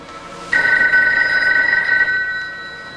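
Telephone bell ringing in one loud, bright, continuous burst of about a second and a half, then fading away.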